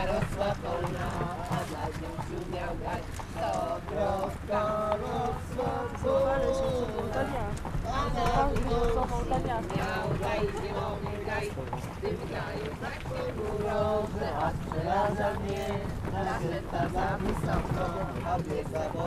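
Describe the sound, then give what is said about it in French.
Horse-drawn carriage galloping along in the Carpathian mountains near Zakopane. Steady, rhythmic hoofbeats run continuously underneath a person talking. “une calèche nous attendait aussi, ainsi que le bon air des Carpates. On est parti au galop, là.”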